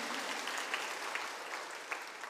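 A church audience clapping their hands in praise during a Sunday sermon, a faint, steady patter of many hands with a few slightly sharper claps standing out, continuous for a couple of seconds.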